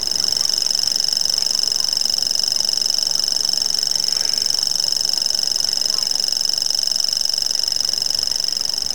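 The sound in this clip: A grasshopper warbler sings its reeling song, a high, dry, insect-like trill that holds steady and unbroken for the whole nine seconds.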